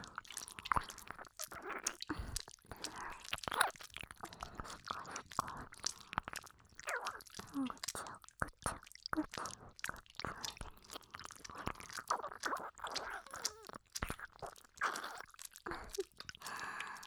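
Wet chewing and biting mouth sounds on an ear: a dense, irregular stream of soft crunchy clicks and squishy smacks at a steady moderate level, with no talk.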